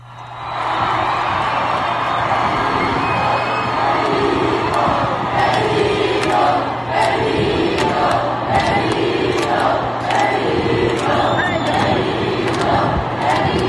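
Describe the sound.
A concert crowd cheers and chants in a loud, sustained roar of many voices, with rhythmic swells in the chanting and a low steady hum underneath for the whole stretch.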